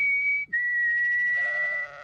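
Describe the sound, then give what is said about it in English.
Sheep on a farm being let out onto grass: a long, high, steady bleat-like tone, broken briefly near the start and then held, with no talk. “I thought it'd be really nice to get the sheep out on some grass.”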